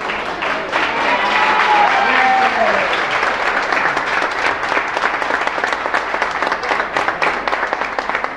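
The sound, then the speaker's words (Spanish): Sustained applause greets the first person entering a neighbours' association office to present their data, with many journalists present. Dense, steady clapping runs loudly and evenly through the whole stretch. “Y estos son los aplausos por el número uno.”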